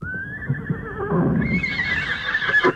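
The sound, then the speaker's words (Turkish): A horse gives a loud, drawn-out neigh as riders mount steeds prepared for them. The whinny carries on for the whole stretch, climbing higher and turning shriller partway through. “Kendileri için hazırlanmış küheylan atlara binerek çıkmışlar yola.”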